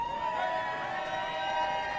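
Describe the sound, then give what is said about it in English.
At a race medal ceremony, a crowd cheers for a man handing out medals. Sustained shouts and hollering voices blend into a steady, excited roar. “The crowd cheers like he's a rock star.”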